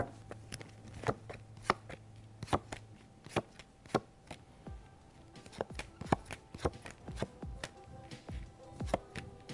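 Tarot cards being shuffled and handled for a reading, many crisp slaps and snaps in an irregular rhythm, fairly quiet and without voices.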